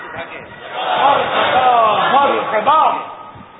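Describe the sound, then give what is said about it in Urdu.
A crowd chants religious slogans in unison at a live religious gathering. The massed voices swell into loud, sustained shouts after the first second and surge again near the end. “آپ نعرے لگا لو جمال مصطفیٰ”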